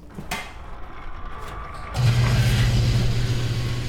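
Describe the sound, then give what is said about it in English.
A fuel pump pumping biodiesel straight into a vehicle's tank: a few sharp clicks over a quiet background, then a loud, steady motor drone starts and holds to the end. “We can pull right in, and we just pump it right directly into our tank. So here goes. It's going to make kind of a loud noise.”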